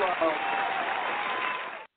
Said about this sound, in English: Can I give him a round of applause?